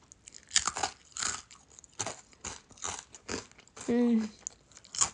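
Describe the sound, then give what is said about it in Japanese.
Crunching and chewing of a crunchy snack eaten while drinking: many loud, crisp bites and chews come in uneven bursts, with a short voiced hum near the end. “このカップスも食べて、ああ酔っ払う。”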